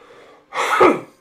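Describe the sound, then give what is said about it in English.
A single loud, harsh cough burst from a person who has been coughing repeatedly, rising abruptly out of faint breathing and cutting off quickly, with the start of another burst right at the end. “I don't know why I'm coughing so much today.”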